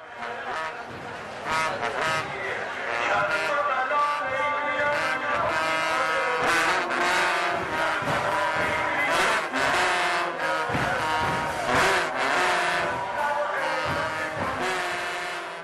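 Trumpet-like horn tones played during a Shia mourning ceremony for Imam Hussein: sustained, blaring notes with a bright, buzzing timbre, struck through by many sharp percussive hits, loud and continuous throughout.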